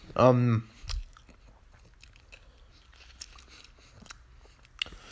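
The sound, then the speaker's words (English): A crisp crunch of someone biting into a Golden Delicious apple, preceded by a brief voiced sound and followed by faint, scattered chewing clicks in otherwise quiet surroundings. “And this one is the hardest apple to bite into”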